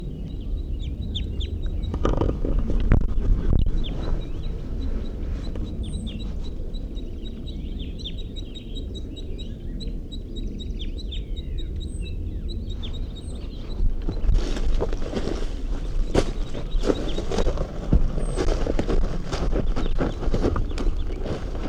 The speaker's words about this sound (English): crossbills come to the scene. Pegging calls by the female and flight calls by the male.